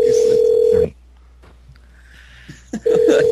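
A telephone line tone sounds as a call is placed. A steady mid-pitched tone is cut off, followed by a quiet gap with faint clicks, then the same tone returns loudly.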